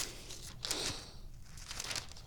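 Paper rustles and crinkles softly as a handwritten ink letter is handled, with a few faint bursts of crackling against a quiet background.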